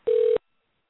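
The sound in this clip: A phone gives a single short electronic tone: one steady, clean mid-pitched beep lasting about a third of a second, then silence.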